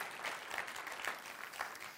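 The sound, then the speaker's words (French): A church audience claps after a prayer in a French-language service. The applause is soft and continuous, with a few raised voices cutting through it at intervals. “Come on, un autre bon applaudissement pour ça.”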